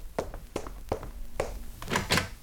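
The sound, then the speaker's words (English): Knocking at a door during a commotion: several firm, hollow thuds at uneven intervals, growing slightly louder toward the end. No voices are heard. “Great heavens, what's that commotion? Someone at the door.”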